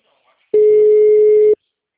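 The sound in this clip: A single steady telephone tone from a call being placed to a school, lasting about one second at an even pitch, loud and alone with no talk.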